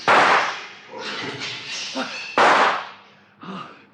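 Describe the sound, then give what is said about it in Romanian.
Gunshots fired into the air and into the ground: a few loud, sharp blasts with short decaying tails, separated by stretches of people talking. “Trage în aer, în pământ, nu mai trage odată.”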